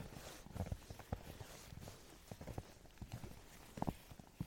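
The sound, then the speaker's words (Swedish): Footsteps trudging through deep snow off the trails in a forest, made by a walker in a snowmobile overall. The crunches are soft and faint, falling in a steady rhythm with no talk. “Och jag försöker i möjligaste mån att inte gå på stigar utan jag går liksom ute i skogen nu.”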